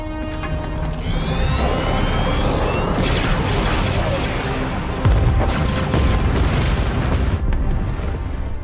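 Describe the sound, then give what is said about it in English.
Weapons opening fire in Star Wars: The Bad Batch make a dense, unbroken barrage of heavy booms and blasts. Sweeping energy shots streak through, and the battle stays loud from start to end. “Sir, we're in position. Open fire.”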